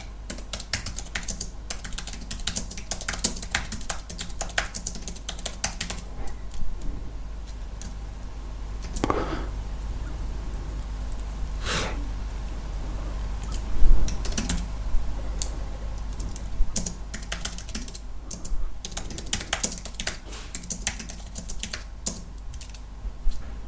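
Someone types a message on a computer keyboard, with many quick, irregular key clicks in bursts and short pauses over a steady low hum.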